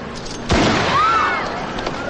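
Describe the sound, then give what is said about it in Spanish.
A single gunshot, fired at the lock of a car door in a drama film, bursts out sharply and is followed by a brief fading tail over a faint background. “su hermano dispara a la cerradura de otro vehículo”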